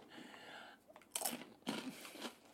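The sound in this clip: Someone biting into and chewing tacos, with a few faint, crunchy bursts of mouth noise and no talk.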